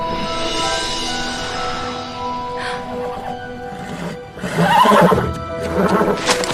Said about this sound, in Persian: آلارم اشتباه. فقط یه اسبه.